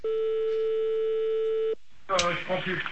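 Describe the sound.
A continuous steady telephone tone sounds for under two seconds while calling someone back, then cuts off and people talk over a line.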